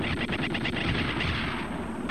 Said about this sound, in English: Who shot at us?